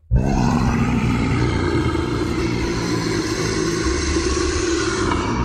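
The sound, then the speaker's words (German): A deep, rough roar meant as a legendary dragon of volcanic mountains bursts in abruptly and holds as one loud, sustained blast for about five seconds. “Nach Drachen. Drachen sollen sehr lange im Siebengebirge gelebt haben, zumindest der Legende nach.”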